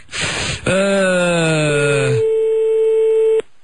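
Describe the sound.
A telephone tone sounds while a call is redialed: a burst of noise and a falling, wavering harmonic tone lead into a steady single-pitched tone that holds for about a second and then cuts off.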